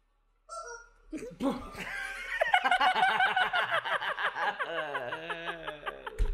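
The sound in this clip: A person imitating a chicken, producing loud, rapid cackling and clucking calls that run on in a quick, uneven stream of sharp, squawky pulses.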